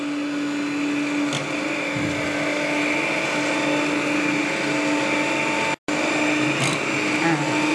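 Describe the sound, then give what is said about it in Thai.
A kitchen blender whirs as it blends a hot liquid into a white cream, a loud, steady motor drone that holds an even pitch throughout. “ใช่แต่ว่าเดี๋ยวเราจะใช้เครื่องปั่นช่วยนะคะพอปั่นไปเรื่อยๆแบบนี้แล้วอุณหภูมิลดลงอ่ะมันจะเป็นเนื้อครีมสีขาว”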